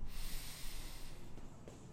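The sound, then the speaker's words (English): A deep breath drawn in through the nose during a guided breathing exercise at a gym: a steady, fairly loud breathy hiss that lasts about two seconds, with no voices. “Take a couple of deep breaths. Breathe in through your nose.”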